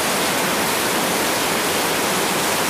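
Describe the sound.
Heavy outdoor rain downpour: a dense, steady wash of loud hiss with no letup across the whole moment and no voices.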